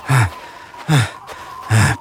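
Heavy panting from someone walking too fast: three loud, breathy bursts, evenly spaced, each a harsh rush of air with a low voiced edge, with quiet gaps between them.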